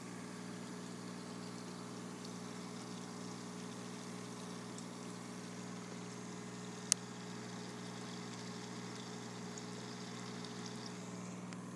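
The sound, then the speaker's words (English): An ozone generator runs with a steady, quiet electrical hum and tonal buzz that stays constant throughout, broken once by a single sharp click midway. “But first, 15 seconds of the ozone generator doing its magic.”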